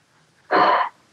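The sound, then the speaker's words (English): A single deep breath, drawn in as a short, loud, breathy rush of air that lasts under half a second. It is heard alone, with no talk, and falls quiet on both sides. “Deep breath.”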